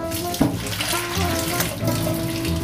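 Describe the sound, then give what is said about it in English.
Boiled potatoes are drained in a kitchen sink, their water pouring out in a steady rushing splash. “So now we need to drain our potatoes.”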